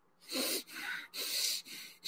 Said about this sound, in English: he's also breathing through his nose like he's got a serious cocaine problem